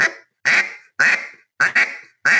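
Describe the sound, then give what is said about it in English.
Loud, raspy quacks from a duck call blown to mimic a live duck, a run of about six nasal notes, each sharp at the start and fading away, heard alone. “you take that, that's a live duck”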